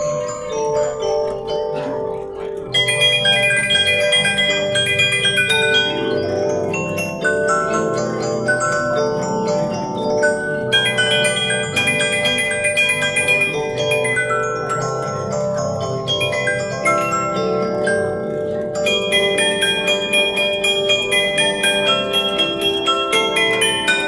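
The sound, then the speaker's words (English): A mechanical music box plays Jingle Bells, its comb plucked by a turning star wheel, producing a bright, tinkling, bell-like melody that runs steadily and fairly loud throughout, without talk. “and the comb is what makes the sound. So, would you like to hear it play? Yeah, sure. This is Jingle Bell, written in 1837.”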